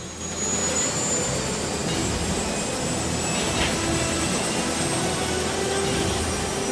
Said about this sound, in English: As they prepare for takeoff, Jack